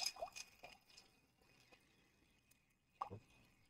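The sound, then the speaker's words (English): A cocktail made with orange bitters is stirred, producing faint, scattered clinks and soft liquid drips, with a few light taps early on and another small cluster later. “While I like the Angostura orange bitters, I like these ones a little bit more. Okay, and just like the first drink, we're going to stir this one.”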